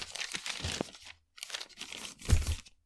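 Paper rustled and crinkled by hand while reading from the pages of a written note: two bursts of dry crackling separated by a short pause, the second ending in a louder crunch, with no voices.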